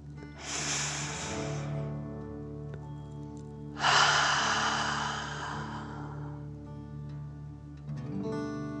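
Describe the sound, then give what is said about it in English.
Deep 'dragon breath' during a guided meditation, one long airy inhale followed by a longer, stronger breath out, set over a soft sustained musical drone. “And take another deep dragon breath. Fill up your chest and belly, in and out.”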